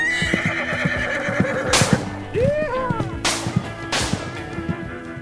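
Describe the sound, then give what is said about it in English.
A horse whinnies and clip-clops as it gallops off, while a revolver is fired into the air with three sharp cracks. A rising-and-falling whinny sounds between the shots over a continuous patter of hoofbeats. “That was me riding off into the sunset, firing a revolver randomly into the air.”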